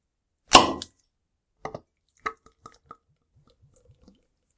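A beer bottle being opened: a short fizzy hiss bursts out, then a few light clicks and taps follow with quiet gaps between them, ending in faint small ticks.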